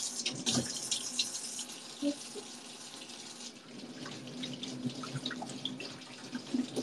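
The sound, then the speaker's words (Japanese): Tap water runs while hands are washed under it, a steady quiet splashing hiss broken by scattered sharper splashes and small clunks, with no talking. “洗いますよ。よいしょ。手洗うかな。”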